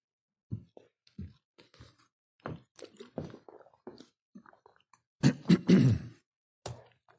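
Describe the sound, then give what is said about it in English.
Throat clearing from a person with a dry throat, in many short rough bursts. The earlier bursts are spaced out and softer, and a louder run of harsh rasps comes near the end, followed by one last softer burst. No one talks over it. “I got just enough water in this thing right here to clear my throat.”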